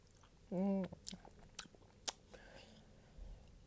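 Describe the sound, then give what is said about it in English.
Chewing Skittles candy, heard as a few crisp, brief crunches spaced apart, fairly faint against a quiet background. “the Skittle ASMR is back”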